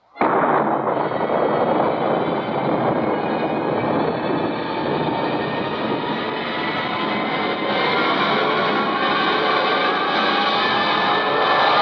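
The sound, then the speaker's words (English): A rocket blast-off sound effect bursts in suddenly and holds as a loud, dense, rushing roar with a deep rumble beneath, continuing steadily for about twelve seconds without a pause. “Countdown for blast-off. X-5, 4, 3, 2, X-1, fire.”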